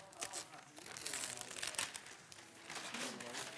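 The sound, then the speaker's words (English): Wrapping crinkles and tears as something is torn off at a church Christmas gathering, a run of crackly rustling bursts with faint voices underneath. “I'm not very good at tearing off things easy.”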